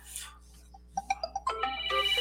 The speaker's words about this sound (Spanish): disculpen, es una llamada.